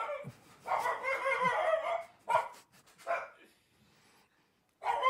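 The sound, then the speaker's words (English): A dog barks at another dog passing by the window: loud, sharp barks in a long run of bursts, then several shorter separate barks with brief pauses between them. “I've got a dog walking past the window just now, and my dog knows that that dog is not is my dog knows that that dog is not part of this family,”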